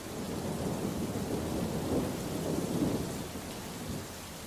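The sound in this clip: A thunderstorm with heavy rain: a steady, dense hiss of falling rain with low rolling thunder swelling through the middle, fairly quiet overall and with no voices.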